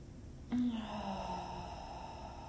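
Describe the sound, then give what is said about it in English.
A soft, breathy exhale through the mouth during a guided breathing exercise: a single airy gust begins quietly and fades into a faint, steady hush. “And then exhaling audibly through the mouth. And another, inhaling.”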